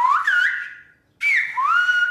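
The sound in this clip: Whistled speech in the La Gomera whistled language El Silbo, imitating a spoken name: two loud, sustained whistled phrases with gliding, bending pitch, split by a brief silence, with no voice heard.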